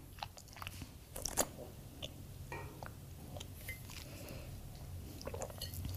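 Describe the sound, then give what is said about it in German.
A faint sip of wine at a wine tasting, with a soft slurp and quiet mouth sounds and a light clink of the glass, the loudest moment arriving just over a second in. “Ja, ich werde jetzt einmal einen Schluck nehmen, glaube ich.”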